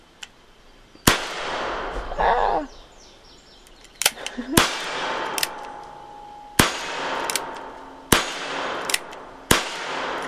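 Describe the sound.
Gunshots during cowboy-themed target shooting: several sharp, loud cracks spaced a second or more apart, each followed by a short decaying tail.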